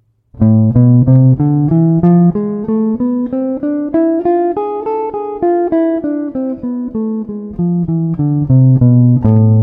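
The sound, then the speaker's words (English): An A harmonic minor scale played note by note on a pitched instrument. Many clean, evenly spaced notes climb steadily and then descend back down, loud and with nothing else heard. “So we're going to be using the A harmonic minor scale, which sounds like this.”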